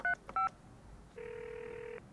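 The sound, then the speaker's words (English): Telephone keypad tones dialing out to call someone: two short electronic beeps, then a longer steady tone held for nearly a second, with no voices. “Let's try calling her again”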